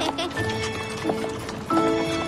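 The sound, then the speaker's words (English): Horse hooves clip-clop in a steady rhythm as a horse pulls a tourist carriage through a park in Manhattan, with voices talking at times over the hoofbeats. “They've been giving carriage rides since the park opened in 1858. Oh, wow. All the horses that you see in this park, they all live in stables right here in Manhattan.”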